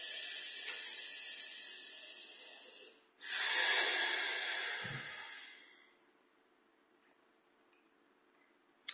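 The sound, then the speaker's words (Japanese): Deep breathing during a stretching break: two long, airy hissing breaths, the second swelling quickly and then fading slowly into quiet. No talking. “はい、深呼吸しましょう。”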